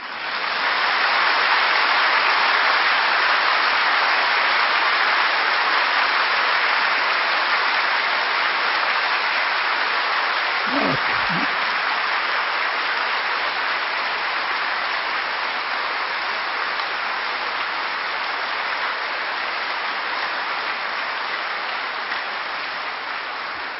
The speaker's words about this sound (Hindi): ताली बजाओ।